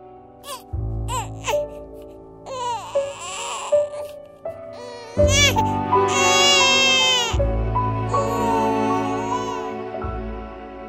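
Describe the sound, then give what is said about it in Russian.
A newborn baby cries at birth in several loud, high wailing bursts with short gasping breaths between them, over a steady low drone. “И в грохотании 130 разнокалиберных органных труб ворвался пронзительный крик родившегося ребенка.”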